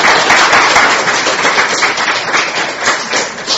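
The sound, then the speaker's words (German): Audience applause at a church gathering: dense, even clapping that stays at a fairly steady loudness for the whole clip, with slight swells. “Can we give Robert a hand for doing this for me today? Könnt ihr bitte den Robert Applaus geben für das heute?”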